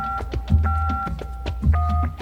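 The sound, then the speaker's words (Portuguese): Ringback tone of an outgoing phone call, a two-pitch electronic tone repeating in short bursts over a thumping, rhythmic background. “Tá chamando.”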